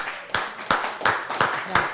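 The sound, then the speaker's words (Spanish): Rhythmic hand clapping honoring the mother of a Pan American Games chess gold medalist: a series of sharp, evenly spaced claps over a faint steady tonal background. “y eso merece un aplauso”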